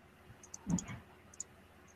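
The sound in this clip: Dice clattering during a tabletop role-playing game fight. A short, faint burst of rattling clicks comes near the middle, with a few sharp ticks before and after it.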